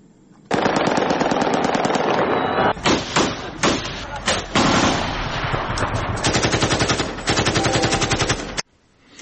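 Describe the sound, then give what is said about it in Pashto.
Loud automatic gunfire crackles in rapid, continuous bursts with a few short gaps. People are firing into the air in celebration after a cricket victory in Afghanistan. “دغه د کومې ډله ایزې یا مخامخ نښتې ډزې نه دي، بلکې هغه هوایي ډزې دي چې خلک یې د کرکټ د بریا په خوشحالۍ کې کوي.”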